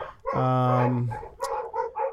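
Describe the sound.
A dog gives one long, drawn-out tonal bark or yowl, followed by a few shorter, choppy barks at a fairly loud level.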